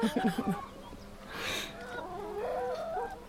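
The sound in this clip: Hens kept in a henhouse clucking: a quick, faint series of short clucks at the start, then a longer, drawn-out warbling call, with no talk.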